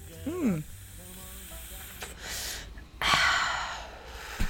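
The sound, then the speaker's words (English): Vaping exhale blown straight into a microphone: a short vocal gasp, then two hissing, breathy rushes of air, the second longer and louder than the first. “That was the sound of one of your hosts vaping straight into the microphone.”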